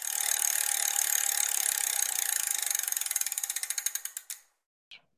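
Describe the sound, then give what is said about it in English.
A prize wheel spins with a fast rattling stream of clicks that gradually slow into separate ticks before stopping, followed by one faint extra click a moment later. “So we get to spin the wheel.”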